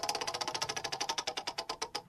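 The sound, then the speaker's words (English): A prize wheel spins with a rapid, even run of sharp ratcheting clicks, many per second, loud and alone with no talk. “let's spin that wheel”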